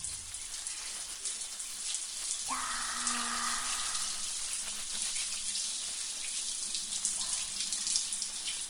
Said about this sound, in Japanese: はい、では洗い流していきますね。